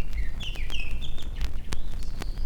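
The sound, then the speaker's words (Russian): A grey-backed thrush sings from the top of a tall elm, a run of clear whistled phrases that shift up and down in pitch, with a few sharp ticking sounds among them. “На вершине высокого ильма поет сизый дрозд.”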